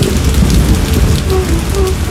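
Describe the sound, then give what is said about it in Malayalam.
Heavy rain pours down in a loud, steady, dense hiss. The downpour keeps the same strength from start to finish, with no voices heard. “നല്ല മഴ.”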